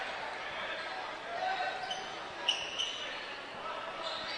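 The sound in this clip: A basketball dribbled on the court during a game, soft rhythmic thuds beneath a steady murmur of voices, with a couple of louder knocks midway.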